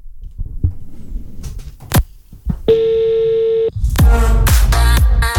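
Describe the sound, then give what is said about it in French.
An outgoing phone call to someone near Herstal gives a ringback tone: a single steady beep lasting about a second, preceded by a few soft clicks and followed by louder, noisier sound. “C'est parti, on en appelle une qui se trouve du côté de Herstal.”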